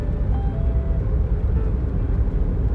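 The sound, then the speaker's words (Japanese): Car driving along a main road at nine in the morning: a steady low rumble of engine and road noise that barely changes, with no talk over it. “朝の9時大通りを走行しております”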